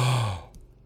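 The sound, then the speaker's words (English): A single deep breath from the stomach, taken as a lung check: one loud, full breath that tails off within about a second, heard alone. “take a deep breath from your stomach, really deep, and go,”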